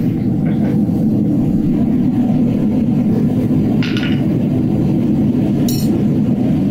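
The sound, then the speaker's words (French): A gas forge roars steadily while heating a piece of scrap iron, a loud, unbroken low rumble of burner noise that holds a constant level throughout, with a couple of brief faint higher hisses. “La forge, elle est là. J'ai juste mis un bout de ferraille dedans.”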